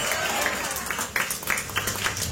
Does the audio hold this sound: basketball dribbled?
no